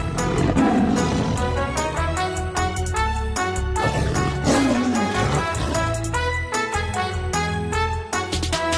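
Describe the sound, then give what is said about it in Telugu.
A tiger roaring: low, drawn-out roars and growls that repeat within a dense, continuous, loud bed of sound. “ఇది ఒక పులి.”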